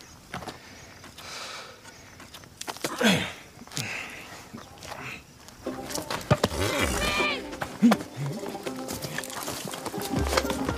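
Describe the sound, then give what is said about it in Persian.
Horse hooves galloping as a rider goes by alongside someone on foot. The clatter is faint and irregular at first, then becomes a busier run of quick hoof beats through the second half. “خدیجه سواره و سیاوش پیاده.”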